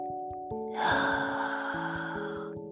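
A long, deep breath during a guided gratitude meditation, a breathy rush that swells and slowly fades over steady, soft sustained musical tones.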